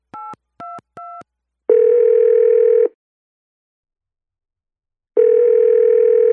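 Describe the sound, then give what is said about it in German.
A telephone being dialed and then ringing: three short, evenly spaced dial beeps, then two long, steady ringing tones separated by a long silence. The tones are clean and loud, with no voices. “Schließlich wählt Richard die Nummer von Markus.”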